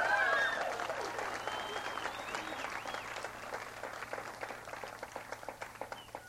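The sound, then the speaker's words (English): Audience applause after a pair of guests is thanked on stage: dense, steady clapping from a crowd that gradually thins toward the end into more separate, spiky individual claps. “Let's all thank them again. Give them a big hand.”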